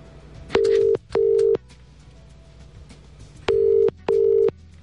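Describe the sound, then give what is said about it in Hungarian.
Four steady, mid-pitched electronic telephone tones play on a phone line as a winner's number is dialed. They come in two pairs of flat beeps and stand alone over a low background hiss. “kollégánk már is tárcsáz”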